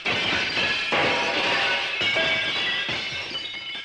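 A bear smashes a jar to pieces: loud, dense crashing and shattering with a few distinct bursts of breakage, followed by continuing clatter through to the end.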